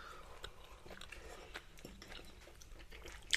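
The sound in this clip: Faint chewing of a large bite of oven-baked goose with jelly: soft, irregular crunches and wet mouth sounds spread across a few seconds, with no talking.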